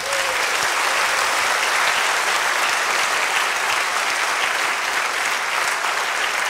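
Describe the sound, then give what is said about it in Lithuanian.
An audience gives Lithuanian Olympic medal-winning rowers a loud round of applause, dense and steady, sustained evenly for several seconds with no voices over it. “Plojam jums dar kartą.”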